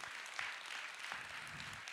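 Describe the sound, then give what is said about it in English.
An audience claps in a faint, continuous patter of many hands, low in level and fairly even, with a few slightly sharper claps standing out. “Yeah, we can clap for Jesus.”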